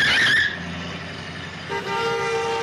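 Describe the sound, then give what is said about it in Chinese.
A car skids past in a near miss, opening with a bright, harsh tyre screech that fades, then a steady car horn blast that holds to the end. “我看到那架车了，不过那架车差一点就撞到我们了。”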